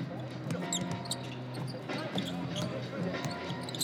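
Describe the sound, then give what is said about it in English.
A basketball bounces on a court as a player takes a left-hand dribble and drives to the basket. Several sharp thumps sound under steady crowd noise and a talking voice. “Left-hand dribble. Drive, Maladin scoops it up and in.”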